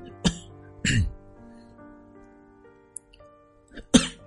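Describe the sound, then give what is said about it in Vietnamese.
A person with a bad cough gives three short, sharp coughs, spaced unevenly with quiet gaps between them and faint low background noise. “Và bị ho quá.”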